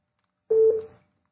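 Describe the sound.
A single short electronic telephone beep from a phone signalling an incoming call. The tone is steady and mid-pitched, lasts about half a second and sounds alone in silence.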